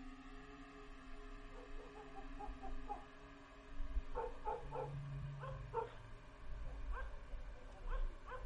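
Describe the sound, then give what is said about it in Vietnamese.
Village dogs growling and barking at night: faint clusters of short, high barks and yips come in several bursts, spread across the whole stretch over a low background hum. “Chó ở trong thôn bắt đầu gằn lên mà sủa nhấm nha nhấm nhằng.”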